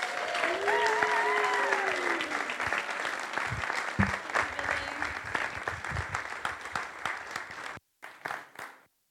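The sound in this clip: Audience applause welcoming a speaker: dense, sustained clapping that holds steady for several seconds, then cuts off, followed by a few scattered final claps.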